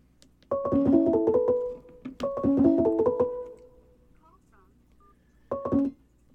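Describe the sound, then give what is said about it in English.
An electronic telephone ringtone signals an incoming call: rapid melodic beeps in two longer bursts, then a short third burst after a pause. “Oh, getting a call. Hold, please.”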